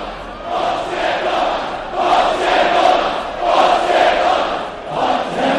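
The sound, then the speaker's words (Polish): Lech football supporters chant and cheer on Plac Wolności. A dense roar of many voices swells in a few rhythmic surges, loud and continuous throughout. “Piłkarze dziękowali też kibicom za doping. Ten doping przez wiele godzin było słychać na Placu Wolności.”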